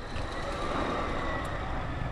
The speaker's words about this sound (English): By noon, much of the sugar is cleared by large haul trucks, like this one in front of us, that's getting ready to head back to the mill to unload.